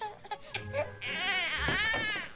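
A child cries, starting with short whimpering sobs and then breaking into a long, sustained wailing cry that stays loud to the end.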